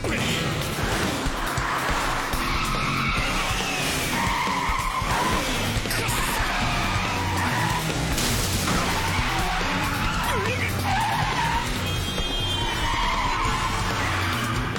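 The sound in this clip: Car chase in a video game with skidding tires: a dense, loud, continuous wash of engine roar and tire screech that runs unbroken from start to end without pause.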